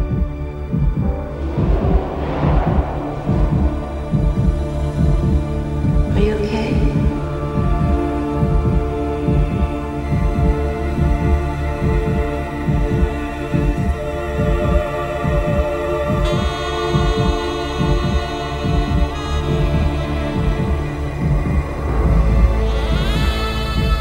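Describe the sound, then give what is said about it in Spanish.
Rapid heartbeat thumps in an original film score for tense scenes. A fast, steady throbbing pulse runs throughout beneath sustained droning, tonal music. “va acompañada de esos apresurados latidos del corazón”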